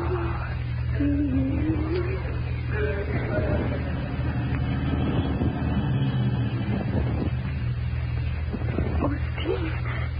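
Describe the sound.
A car drives up, heard as a muffled, steady engine rumble that holds at an even level throughout on an old, narrow-sounding recording.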